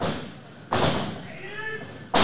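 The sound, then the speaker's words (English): Heavy thuds of a wrestler landing a brainbuster on the ring mat during a wrestling match: two sharp, loud impacts separated by over a second, with voices in the background. “He can hit you with a big brain buster there.”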